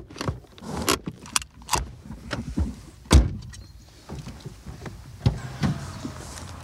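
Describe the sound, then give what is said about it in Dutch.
A car's rear window being wound open by hand with a crank, giving an irregular series of clicks, knocks and rattles, with one louder thump midway and no voices. “Of nee, die is niet elektrisch, maar die kan ik wel open draaien.”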